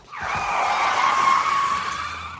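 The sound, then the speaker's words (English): Brakes screech in one loud, sustained squeal, a high, tire-skid whine that holds steady for about two seconds before tapering off. “hit the brakes again”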